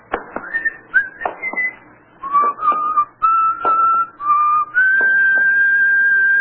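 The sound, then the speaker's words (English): A man whistles a song, a clear, fairly loud melody with no talk over it. Short gliding phrases come first, then longer held notes that step between pitches, ending on one long sustained tone. “What's the name of the song that guy is whistling?”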